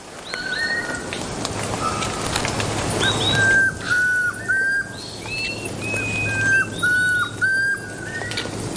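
Song of a ground-foraging forest bird that searches for ant nests, in breeding season: clear, melodious whistled phrases, repeated several times with short pauses, over a faint, steady low hum.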